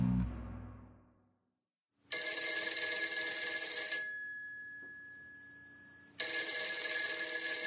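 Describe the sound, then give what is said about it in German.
Ringing tone of an outgoing telephone call: two long, bright electronic ring bursts separated by a pause, each steady and loud, with a fading tail after the first. “Und ich denke, das tun wir jetzt einfach mal. Ich rufe mal Michael Wucher an. Der spontane Anruf.”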